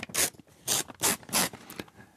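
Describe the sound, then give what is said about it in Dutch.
Paper tearing and rustling as an envelope holding a question card is opened: four sharp, loud rasping bursts in quick succession, then softer crinkling. “En dan pak ik de envelop en de vraag die daarin zit is de verrassende vraag.”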